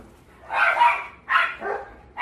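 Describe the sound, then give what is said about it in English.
A dog barks a few times in quick succession. The barks are medium-pitched and fairly loud, separated by short pauses, and the last one is cut off at the end. “Sorry, that's my dog.”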